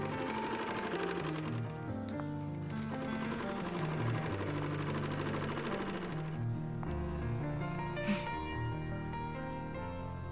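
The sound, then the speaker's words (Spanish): A sewing machine stitching a fabric cover for a Quran, a steady mechanical whir with a rapid rhythmic clatter that runs unbroken throughout. “¿Estás cosiendo una funda para un Corán?”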